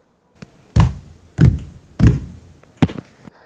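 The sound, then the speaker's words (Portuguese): A group stomps their feet on the floor together in slow rhythm: four heavy, low thuds spaced well apart, with a few faint taps in between. “Vamos começar a bater com o pé no chão em ritmo mais lento, todo mundo junto, tá bom? Pode ser usando um pé ou usando os dois pés juntos, como vocês quiserem.”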